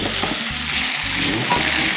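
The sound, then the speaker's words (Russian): Onion frying to golden in a cast-iron pan, giving a dense, steady sizzle and crackle with some stirring, loud throughout and without voices. “До какой степени обжариваем лук? До золотистости.”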